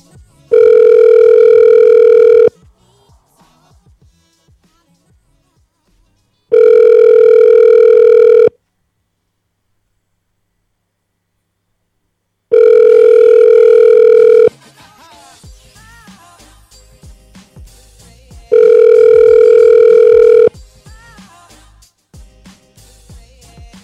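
A phone call rings on unanswered: four loud, steady ring tones of about two seconds each, evenly spaced with long gaps between them, and faint background noise creeping in between the later rings.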